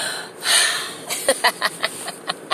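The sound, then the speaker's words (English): A speaker takes a quick, audible breath, a short breathy rush near the start. Several small, sharp clicks and ticks follow in an uneven rhythm. “Now that was a mouthful, so let me breathe.”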